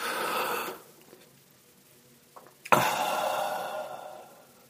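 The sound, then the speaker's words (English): Deep breathing exercise: one long, breathy breath, a near-silent pause broken by a couple of small clicks, then another long, noisy breath that slowly fades out. “I think I should start doing breathing exercises with people.”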